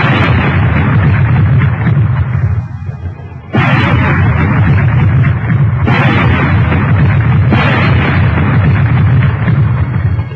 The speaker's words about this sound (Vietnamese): bốn tiếng súng như xé màn tai mọi người, làm cả bảy cái đầu đều quay về phía hai chấm đen một lượt.